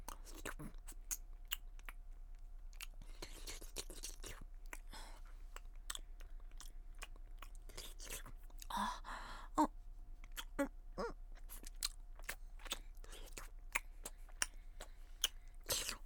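Soft, wet licking and kissing mouth sounds on a nipple, a long run of many faint smacks, clicks and slurps scattered irregularly over a quiet background hiss.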